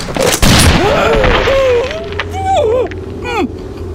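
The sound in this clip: A gunshot fired at close range in a tense standoff bursts out as a single loud, sharp boom early on, followed by a sustained noisy rumble.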